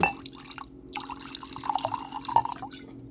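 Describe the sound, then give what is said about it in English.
Bourbon being poured close to the microphone, a soft trickle of liquid broken by scattered drips and small splashes at low level. “Oh, am I not cool if I don't pour my bourbon right in front of the microphone?”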